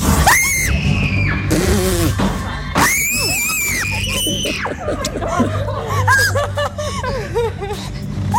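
Loud, near-constant screaming and squealing from people inside a horror attraction maze themed on a slasher killer, with shrieks mixed with nervous laughter and chuckles throughout.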